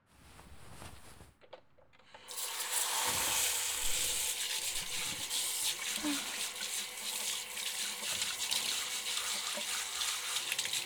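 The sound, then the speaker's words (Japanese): Hot water gushes from a tap, starting after a brief quiet with a soft click, then running as a loud, steady hiss that continues to the end. “とにかくお湯出します。”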